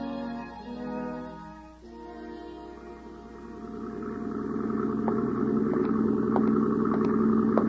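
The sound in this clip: A motor launch boat's engine runs at night with a low, steady droning hum that grows gradually louder, while a few faint ticking clicks sound over the final seconds.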